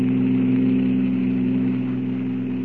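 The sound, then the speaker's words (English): A roadster's powerful motor runs wide open, speeding along a highway at night: a loud, steady low drone with a dense rumbling tone that holds level for the whole stretch and eases slightly toward the end. “With its powerful motor wide open, the roadster flies over the white ribbon of highway”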